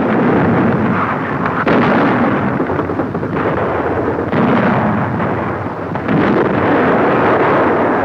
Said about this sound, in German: Unsere Artillerie belegt den Landekopf von allen Seiten mit starkem Feuer.